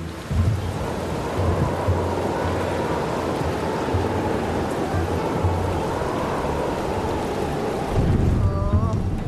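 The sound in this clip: Heavy rain pours down in a dense, steady hiss that fills the whole clip at a constant loud level, with a low rumbling layer underneath.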